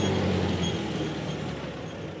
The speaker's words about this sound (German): Zweitaktdunst zwischen den Rapsfeldern in Vorpommern. Und dann im ersten Gang langsam fahren.